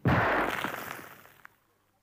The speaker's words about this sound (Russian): вырвал кольцо и бросил бомбу в коридорчик.